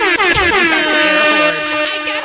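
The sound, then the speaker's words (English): A loud, sustained air horn blast holds for over two seconds. Its pitch sags slightly at the onset, then settles into a steady, harsh, buzzy blare with no pauses. “I have an air horn.”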